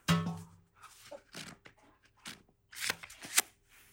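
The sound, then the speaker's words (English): A deck of playing cards is riffled in a perfect shuffle so every card interlaces with the next, giving faint papery bursts of flutter and snapping in a few uneven clusters. “the idea is to shuffle them perfectly. So every card is interlaced with every other card.”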